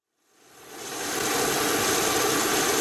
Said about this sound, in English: It might be hard to tell, but that's the sound of a plane with lower carbon emissions. The aircraft is refueling on the tarmac at the Telluride Regional Airport